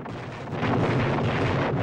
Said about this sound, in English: A revolutionary is shot and drops a lighted stick of dynamite. Chris quickly throws the stick aside and pulls the man to safety.